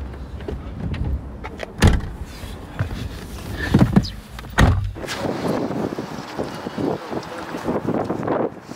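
Car doors shut as people get into a car: a few sharp, hollow thuds stand out over steady wind noise and a low rumble.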